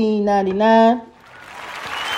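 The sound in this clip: Applause sound effect swells in as a broad, hissing wash after a short tonal sound at the start, growing louder toward the end.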